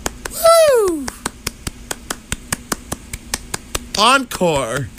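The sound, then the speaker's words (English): A lone man imitates an audience giving a standing ovation. Steady, evenly spaced hand claps run throughout, with loud whooping cheers of his own voice at the start and near the end. “That was my impression of a one-man audience given a standing ovation.”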